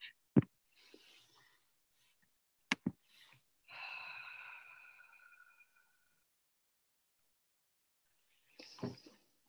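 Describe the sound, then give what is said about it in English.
A group breathes deeply together at a meeting. Faint, soft breaths are separated by long silences, and a sustained tonal hum sounds in the middle. “let's just breathe three times together”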